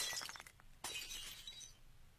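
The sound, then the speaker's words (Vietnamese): A bowl smashes against someone's back and shatters. A sharp crash comes midway, followed by a hissing spray of breaking fragments, all quite faint. “Cái bát đập vào lưng thằng béo, vỡ đánh xoảng một tiếng, hết cả hồn.”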